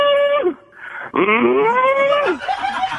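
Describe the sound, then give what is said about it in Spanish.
A fierce bull bellows loudly in two long, strident moos, each falling in pitch at the end, followed by a quieter low sound. “Era un toro bravío que muía fuertemente.”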